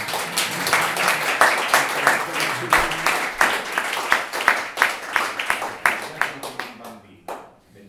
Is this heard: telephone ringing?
no